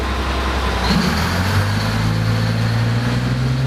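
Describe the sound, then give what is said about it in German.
Deep, constant engine roar of a 1217-horsepower dump truck at an ore mine, a loud low drone with a broad rushing noise over it, steady throughout. “so klingt ein 1217 PS starker Muldenkipper am Erzberg”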